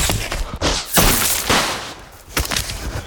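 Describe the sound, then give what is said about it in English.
Magic wands firing spells during a chase: a run of loud, rough blasts and whooshing bursts with a few sharp onsets, heavy and noisy throughout. “The snatchers fire with their wands and start gaining on them.”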